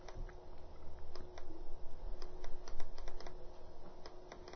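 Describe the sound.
Computer keyboard typing, many quick clicking keystrokes in uneven bursts over a steady low hum.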